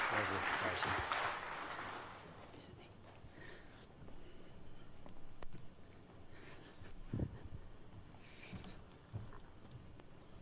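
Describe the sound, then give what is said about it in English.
Church audience applauding at Gateway Church: a loud burst of clapping over the first couple of seconds thins into scattered claps and murmuring voices, with a few small knocks afterward. “Can we give them a hand this morning and welcome them back to Gateway Church?”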